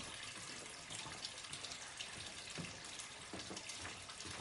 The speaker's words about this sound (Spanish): Pasa junto al grifo abierto sin hacer ademán de cerrarlo.